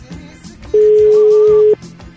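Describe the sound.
A single steady telephone line tone sounds while a call is being placed. It holds one even pitch for about a second and rises loudly above fainter sounds before and after it.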